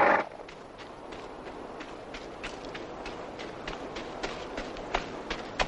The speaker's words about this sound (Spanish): El soldado atraviesa corriendo una explanada desértica.